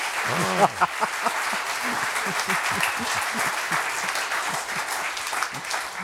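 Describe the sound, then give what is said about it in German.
Audience applause follows a piano performance: a steady, dense wash of clapping that holds at an even level throughout, with a voice briefly audible near the start. “Meine Damen und Herren, Sie dürfen applaudieren, denn was Sie gehört haben, ist alles richtig.”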